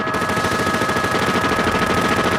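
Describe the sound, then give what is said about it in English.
A modified fully automatic AK-47 fires armor-piercing bullets in a dense, unbroken rattle of rapid shots at steady loudness, with no voices. “Officers find themselves against a fully automatic modified AK-47 with armored piercing”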